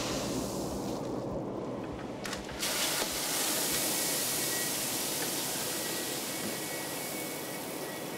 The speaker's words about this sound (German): Hier füllt er gerade Mais nach. Der wird in diesem Mahlgang zu Futter aufgebrochen.